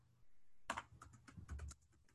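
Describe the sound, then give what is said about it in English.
Typing on a computer keyboard, a short flurry of quiet, crisp key clicks that follows a moment of near silence and then trails off. “Let me just type it up on the computer real quick.”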